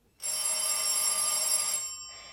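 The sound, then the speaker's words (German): An electric telephone bell rings in one steady, shrill burst of a little over a second, then fades away. “Da läutet auch noch das Telefon.”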